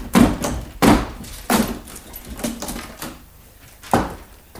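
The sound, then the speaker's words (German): Heavy blows as a locked door is broken in for a 1950s radio crime drama: several loud, dull thuds and bangs in an uneven series, fading into weaker knocks near the end. “wir müssen die Türe einschlagen.”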